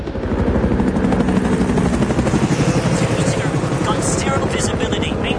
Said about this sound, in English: 3 helicopters fly through the blizzard over Scotland.